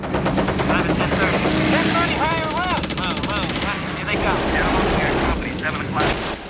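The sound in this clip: Machine-gun fire bursts from the ball turret of a B-17 bomber in combat: dense, rapid, loud rattling that runs continuously, with a few higher tonal whines passing through the din.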